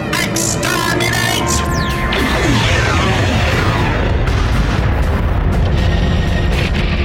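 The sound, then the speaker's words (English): A sci-fi effect of a neutronic cluster missile battery firing from an alien warship: a dense, unbroken roar of heavy booms with falling, whooshing tonal sweeps running through it, loud throughout. “Arm forward neutronic cluster missile battery!”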